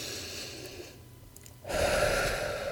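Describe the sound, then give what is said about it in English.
A powerful breath during a breathing exercise, drawing in through the nose and releasing through the mouth. A softer airy hiss gives way to a louder, fuller rush of air that carries steadily to the end. “In through the nose, out through the mouth, and really just focus on that pattern for the next few minutes.”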